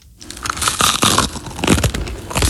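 Crisp crunching of someone eating crunchy food at breakfast, a continuous run of fairly loud bites and crackly chewing with no voices.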